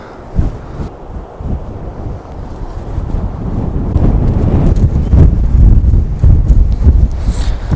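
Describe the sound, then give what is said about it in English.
Strong wind blows across a microphone on a cliff, a low rumbling roar with gusty buffeting that swells louder partway through and stays heavy to the end. “The wind is getting worse and I'm not going to give up, but it's becoming more and more difficult.”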